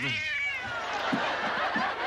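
A cat gives one short meow at the start, its pitch sinking slightly, followed by a steady noisy background with a few soft low thuds.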